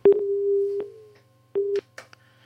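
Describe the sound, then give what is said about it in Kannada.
A busy tone follows a dropped phone-in call: a steady mid-pitched beep of under a second, a pause, then a shorter beep, followed by faint crackles. “ಯಾಕೋ ಕರೆ cut ಆಯ್ತು.”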